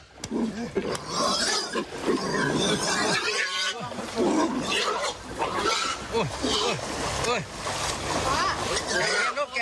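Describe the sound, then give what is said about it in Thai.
Frightened pigs shriek and squeal as rescuers wade into floodwater to carry them out of a flooded pig pen. The shrill cries are dense and loud, overlapping almost without pause. “กู้ภัยต้องลุยน้ำเข้าไปช่วยพาหมูออกจากจุดนี้ท่ามกลางเสียงร้องตกใจของเจ้าน้องหมูครับ”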